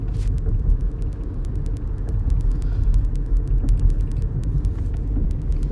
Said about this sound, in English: Don't mind the noise in the back. I'm driving